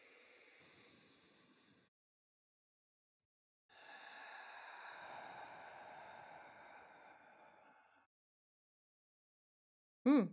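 Slow, deep belly breaths during a breathing exercise: a soft airy breath that fades out, a pause, then a longer, steadier breath lasting about four seconds, followed by silence and a brief sharp sound at the end.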